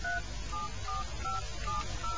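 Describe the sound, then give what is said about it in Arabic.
Keypad touch tones as a mobile phone number is dialed: six short, clear beeps at an even pace over a low, steady background hum. “يلا نتصل ببابي. ما بيردش، ممكن نتصل على موبايل محمود.”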